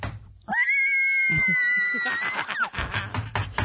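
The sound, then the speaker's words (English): A person imitates a dinosaur with a loud, high, sustained screech lasting about two seconds that bends slightly at the end, followed by voices. “Dinosaur noises.”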